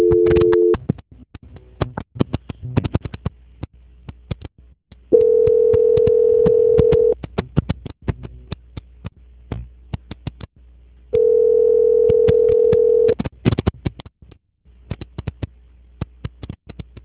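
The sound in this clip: Telephone call-transfer hold tone: a flat beep about two seconds long recurs after long gaps over a crackly line full of clicks and faint noise.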